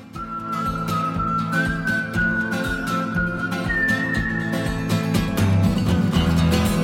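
Whistled melody in a pop song rides over a busy band backing, its clear sustained notes stepping up to higher pitches as the tune moves along, with no voices.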